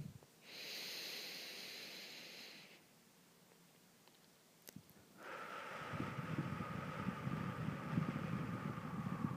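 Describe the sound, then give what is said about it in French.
Slow, deep breathing during a relaxation exercise: a long, airy, hissing breath, a quiet pause, then a longer, rougher breath that continues steadily to the end. The breaths are fairly faint. “Laissez venir comme ça 3 profondes respirations.”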